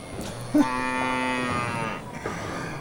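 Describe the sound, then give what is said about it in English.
Cattle mooing: one long, low, drawn-out moo with rich harmonics holds for over a second, and a shorter, quieter lowing sound follows near the end. “You need to dig a groove, even if you're in the bowling alley with a bunch of cows.”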